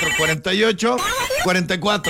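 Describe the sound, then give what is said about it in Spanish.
Telephone ringing in a radio studio booth, a loud warbling electronic ring that repeats in several short bursts with brief gaps between them. “teléfono en cabina”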